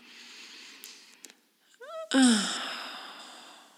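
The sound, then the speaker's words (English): During a relaxing stretch routine, a slow breath is drawn in through the nose and then let out through the mouth as a long, voiced sigh that falls in pitch. “Take a big breath in through my nose and out through my mouth.”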